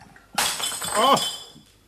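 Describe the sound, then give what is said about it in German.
A drinking glass breaks with a sudden sharp crash followed by bright tinkling shards, and a voice cries out over the shattering before it fades. “Nur mehr Glas kaputt.”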